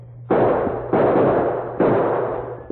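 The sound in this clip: Revolver gunshots as a radio drama sound effect: three loud, evenly spaced bangs, each a sharp burst that decays into a noisy tail.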